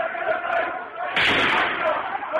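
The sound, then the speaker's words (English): Street protesters in Homs, Syria, fill the air with crowd voices when a sudden loud bang cuts through at about the midpoint, followed by continuing clamour. “A demonstration, a shot, and a wounded protester falls to the ground.”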